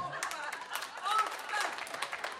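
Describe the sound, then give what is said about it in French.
Scattered audience clapping during a studio discussion, with quiet, uneven claps under voices that talk through the clapping. “Bon, je ne sais pas comment interpréter ces applaudissements sur la question de l'incompétence amoureuse.”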